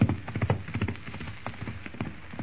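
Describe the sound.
Horses' hooves clip-clopping as riders set off, a steady run of rhythmic hoofbeats that is loudest at the start and continues evenly throughout.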